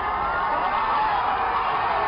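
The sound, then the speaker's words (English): A crowd gathered outside cheers as a gay rights ruling reaches them, making a steady, sustained roar of many voices. “A huge cheer, then singing, as the decision reaches the crowd out front.”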